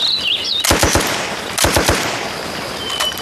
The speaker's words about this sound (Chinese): 机枪给我突突。